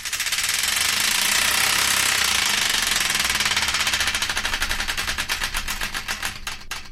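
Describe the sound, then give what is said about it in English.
A prize wheel spins with loud, rapid clicking that holds fast at first, then slows and spreads out toward the end as the wheel comes to a stop. “And I believe it's once again time to give the Wheel of Destiny another spin.”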